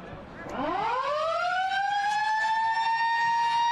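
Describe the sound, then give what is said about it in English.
A siren marks the end of the first quarter of a football match, a loud harmonic tone that climbs steeply in pitch and then holds a sustained, steady note. “That's the siren to bring the first quarter to a conclusion.”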